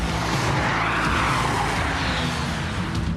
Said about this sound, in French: Je t'avais dit qu'on ferait un peu de drift.